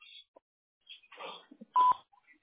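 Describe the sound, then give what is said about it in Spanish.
A short, loud electronic voicemail beep sounds near the end, preceded by a few faint scattered blips and tones. “At the tone, please record your message. When you've finished recording, you may hang up or press 1 for more options.”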